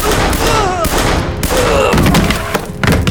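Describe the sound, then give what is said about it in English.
Gunfire from three gunmen firing down from a balcony railing: several sharp reports and thuds in a dense, noisy mix. “he could see all three gunmen standing at the balcony railing and firing down at Frank”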